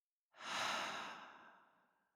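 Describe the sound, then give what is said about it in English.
One long, deep breath out during a guided breathing exercise. The breathy exhale swells quickly, then slowly fades away, soft and alone with no talk. “we're going to take a deep breath in, hold it at the top, and breathe out. So breathing in, hold, and breathing out.”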